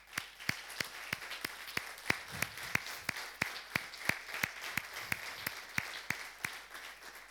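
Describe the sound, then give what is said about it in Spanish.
A church audience applauds in rhythm, many hands clapping together in a steady, even beat. The sharp claps come about three per second and keep going throughout. “¿Por qué no le damos un aplauso al Señor?”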